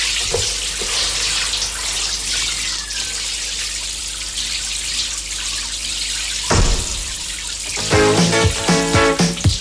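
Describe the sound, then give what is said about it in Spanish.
Warm water runs from a tap to fill a bath in a steady, loud rushing flow, with a few brief, louder bursts near the end. “Lavo todo mi cuerpo con agüita tibia. Primero la cara, las orejas y el cuello.”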